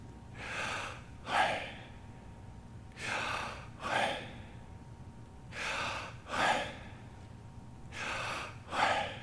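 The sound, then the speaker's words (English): A person breathing slowly and quietly, with four evenly spaced pairs of airy breaths separated by near-silent pauses, nothing else heard. “if you just quiet down and listen, every human being that is alive and breathes, just listen when you breathe.”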